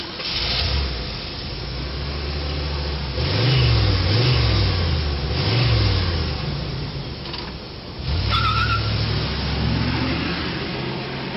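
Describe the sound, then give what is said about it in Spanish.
A car driving away, its engine rumbling and revving, rising and falling in pitch several times over a steady, noisy background. “subió en el coche y se marchó de allí sin más”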